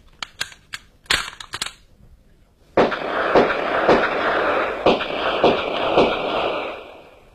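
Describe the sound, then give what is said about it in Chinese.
Sharp pistol shots fired at a target crack out in a quick, uneven series, followed by a longer stretch of dense, loud noise broken by further sharp cracks. “队长，好枪法呀，真是名不虚传。六发子弹靶上只见两个洞”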